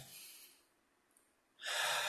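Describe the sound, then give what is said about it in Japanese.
A deep breath taken during a guided stretching exercise: a soft breathy inhale fades into a brief pause, then a loud, airy exhale rushes out and holds steady to the end. “じゃあちょっと体をほぐしてください。よいしょ。はい、深呼吸。”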